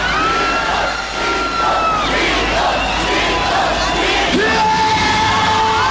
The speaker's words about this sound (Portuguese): Quero ver a moçada gritando, então. Gritos, gritos, gritos, gritos, gritos, gritos, gritos. Vamos pra cima.